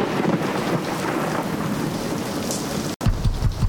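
Heavy rain pours in a dense, steady wash, with low thunder rumbling beneath it. The storm stays loud throughout, broken by one brief dropout near the end.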